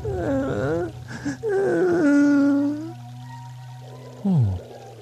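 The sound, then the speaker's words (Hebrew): Baby Moses cries in several drawn-out, wavering wails, loud and high-pitched, and finishes with a short whimper that falls in pitch. “ומשה בכה.”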